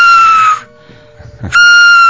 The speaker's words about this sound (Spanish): ¿Cómo se elaboran las ocarinas? Y esta es una de las que ahorita voy a tocar, sonar, a silbar, queridos oyentes, es ya las que tú has elaborado con técnicas precolombinas.